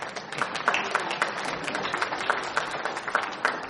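Thin, scattered applause greets two men coming onto a church stage. The claps are sparse and uneven and fairly faint, with no cheering.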